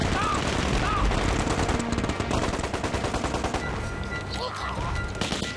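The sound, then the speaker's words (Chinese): Machine gun fire sweeps a crowded bridge during a wartime ambush: rapid, dense bursts of shots rattle continuously and loudly throughout, with no pause between volleys. “最混乱最拥挤的时候，一阵机枪猛扫，日军毫无还击之力。”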